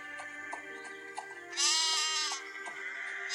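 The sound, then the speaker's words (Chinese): A flock of sheep bleating as they are brought into their pen, with one loud, drawn-out wavering bleat standing out among a few shorter, fainter calls before and after it. “羊群已经入圈了”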